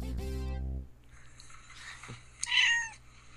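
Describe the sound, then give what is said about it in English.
A cat gives a single short, high meow near the end. Before it there is a steady low hum that cuts off, then quiet background. “It's kitties.”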